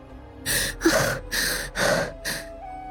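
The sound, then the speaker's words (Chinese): A voice actor performs gasping, heavy breathing after a fight with a two-headed giant eagle. About five rapid, breathy pants come one after another, loud and ragged, with no speech. “当灭杀了双头巨鹰之后。古天明和上官冰儿都连忙大口呼吸。”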